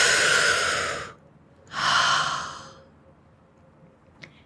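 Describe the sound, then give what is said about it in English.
Two deep, airy breaths, each a soft rush of air lasting about a second and separated by a short pause, followed by quiet near-silence and one faint click. “Take a breath in.”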